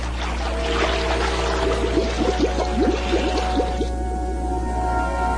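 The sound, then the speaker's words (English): River water rushes up into an airlock around two divers in scuba gear, making a steady gurgling, pouring flow with a run of bubbly tones through the middle that then eases off. “Carter and Yoshizumi stand in the airlock as river water rushes up around them”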